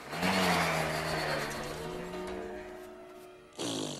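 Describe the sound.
A car engine hums steadily as the car drives away, its faint tone holding a fairly even pitch. Near the end it briefly cuts off, then returns as a short louder burst of noise.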